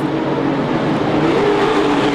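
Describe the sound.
A race car engine roars loud and steady at a street Grand Prix on the National Mall in Washington, a dense continuous drone with a faint tonal whine in it.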